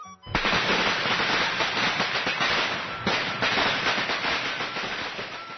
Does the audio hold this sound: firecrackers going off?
yes